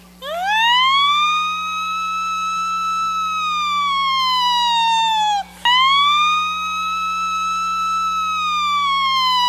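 A loud wailing siren played as a sound effect during a church sermon. It climbs quickly, then glides slowly downward, cuts out briefly, and climbs again into a second long falling sweep, heard alone without talk.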